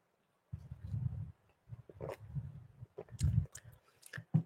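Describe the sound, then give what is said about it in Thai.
A person takes a few small sips of water, producing soft, low mouth and throat sounds: a series of muffled gulps and wet swallowing noises in short bursts over quiet, with a few faint clicks. “ดื่มน้ำนิดนึงนะครับ”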